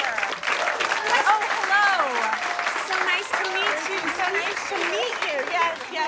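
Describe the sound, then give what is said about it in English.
An audience applauds with steady, dense clapping throughout, while voices call out and cheer over it. “Everybody clap.”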